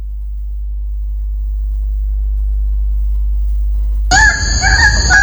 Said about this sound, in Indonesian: Ini suara burung cantik dari surga. Namanya burung cendrawasih.